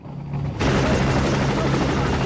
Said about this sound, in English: Later, the chopper's landing amidst a cloud of dust.